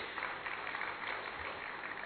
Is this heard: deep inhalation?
no